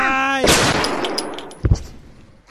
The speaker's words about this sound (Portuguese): Você atirou na minha amiga, seu malvado.